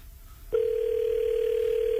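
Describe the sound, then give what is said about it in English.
A telephone line tone while calling comes in abruptly after a faint, quiet start and holds as one steady, continuous electronic note to the end. “No way she's picking up. If she does, it's always after one ring.”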